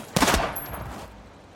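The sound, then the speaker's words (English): Gunfire from two guns in a shootout: a brief, loud burst of rapid shots, followed by a ringing tail that fades over about a second. “She draws her gun. He draws his. Two lovers unloading magazines at each other, willing bullets to hit flesh.”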